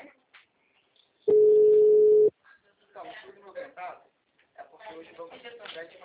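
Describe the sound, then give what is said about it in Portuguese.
A steady single-pitch telephone dial tone after a dropped call holds for about a second, then stops, and a person starts talking. “a ligação tinha caído”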